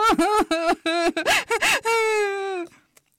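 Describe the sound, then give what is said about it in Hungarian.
A voice imitates crying: a string of short, wavering, sobbing wails with catches of breath, ending in one long drawn-out wail that fades away. “sírt, bömbölt, szipogott és hüppögött.”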